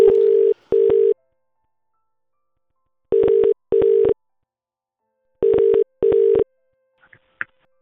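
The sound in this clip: Telephone ringing tone after dialing: three pairs of short, steady mid-pitched buzzing beeps separated by silent gaps, followed by a couple of faint, brief clicks at the end.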